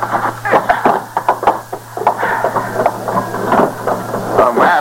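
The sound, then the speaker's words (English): Someone pounds on a door, producing many loud, irregular thuds in quick succession, with short pauses between bursts. “Pounded on the door on the other side.”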